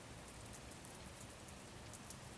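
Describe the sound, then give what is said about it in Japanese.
Raindrops hitting trees in a forest during rain and wind. A quiet, steady hiss of dense rainfall runs throughout, with faint scattered drop taps over it. “雨粒が木々を叩く音、ポツンポツン、雨風で”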